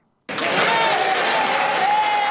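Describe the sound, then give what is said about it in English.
Standing ovation in Parliament for a departing prime minister: after a brief silence, dense applause breaks out abruptly and continues as a loud, steady roar of many hands clapping. “A standing ovation for outgoing British Prime Minister Keir Starmer in Parliament on Wednesday.”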